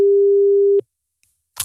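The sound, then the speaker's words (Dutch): The ringing tone of an outgoing telephone call: one loud, steady, pure tone lasts just under a second and stops abruptly. A short burst of noise follows after a brief silence. “Ik ga bellen met Mendel.”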